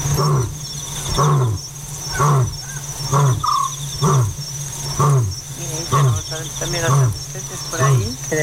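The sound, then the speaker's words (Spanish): An African scops owl calls at night in the African bush: short, low, purring notes repeat steadily at about one-second intervals over a constant high-pitched insect drone. “Ese tru es el autillo africano,”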